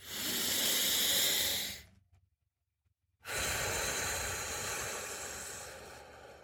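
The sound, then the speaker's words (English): A deep breath taken during a guided relaxation moment. A long, airy inhale is followed, after a short silent pause, by a longer slow exhale that fades gradually. Both are loud and breathy, and no one speaks. “Let's take a nice deep breath right now. Let's take a nice deep breath, okay?”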